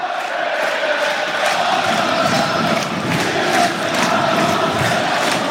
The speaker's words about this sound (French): Et ça a totalement réveillé le public de Diochon. Qui y croit de nouveau à 45 minutes de la fin de ce match.